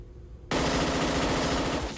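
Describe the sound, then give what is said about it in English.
Loud automatic gunfire fired at a silver ball target on a firing range starts abruptly after a brief quiet and runs as one dense, continuous rapid burst to the end, with no voices. “One of the new soldiers fires at a silver ball target on a firing range.”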